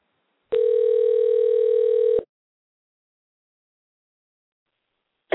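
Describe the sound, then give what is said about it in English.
A telephone call ringing out: one steady electronic ring tone lasting under two seconds, followed by silence, with a brief burst of sound at the very end. “So let's give him a dial.”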